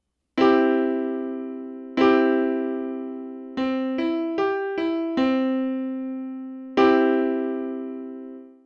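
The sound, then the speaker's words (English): A major chord rings out on a sustained, bright instrument. It is struck twice, followed by a quick run of separate notes, then sounded twice more, each attack clean and decaying slowly with no talking over it. “And the major chord sounds like this.”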